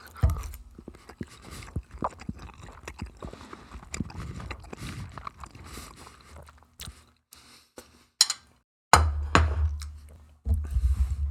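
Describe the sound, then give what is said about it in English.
Close-up biting and chewing of cold egg topped with a chipotle-style hot sauce. Irregular crunchy, wet mouth clicks and smacks are followed near the end by a few louder, sudden thumps. “All right, here's the second bite.”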